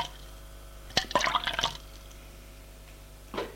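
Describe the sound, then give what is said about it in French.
Tap water splashes into a watering can in a short, busy burst of gurgles and drips, then goes quiet. A second brief splash comes just before the end. “remplit l'arrosoir d'eau au robinet”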